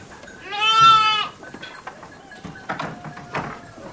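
A single loud, wavering bleat from a sheep on a working farm rises and then ends, followed by a few faint, scattered animal and movement sounds.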